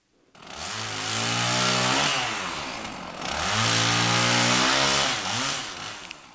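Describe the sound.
A chainsaw runs loud and alone, its buzzing engine drone surging up twice to a high rev and easing back between the bursts.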